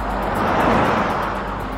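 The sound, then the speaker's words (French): Two cars cross each other on a road, making a continuous broad rush of engine and tire noise that swells slightly toward the middle and then eases off. “Les deux véhicules se croisent.”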